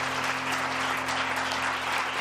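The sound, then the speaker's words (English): A church audience clapping hands, a thick, continuous wash of claps at a steady volume over a low electrical hum. “Give the Lord a hand clap tonight.”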